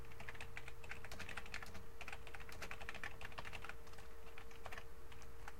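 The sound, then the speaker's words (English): Someone types a line of program code on a computer keyboard: rapid, fairly faint keystrokes patter continuously over a steady low hum. “I'll simply type in the message inside quotes inside here.”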